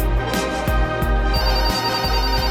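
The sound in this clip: A mobile phone rings for an incoming call, a repeating electronic ringtone over rhythmic low buzzing pulses like a phone vibrating, steady and fairly loud throughout.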